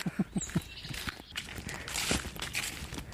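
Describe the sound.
Footsteps of someone walking through the dark, starting with a quick run of evenly spaced, soft thuds. Fainter, shuffling steps follow under a continuous low rustle.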